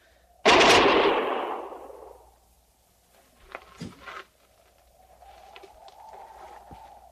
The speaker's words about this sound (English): We've stopped firing. We've turned him back.